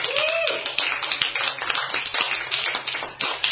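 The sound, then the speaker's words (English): Audience applause for a panel of scientists at an evening event: dense, steady clapping from many hands, continuous throughout. “please put your hands together for our meeting of the minds tonight.”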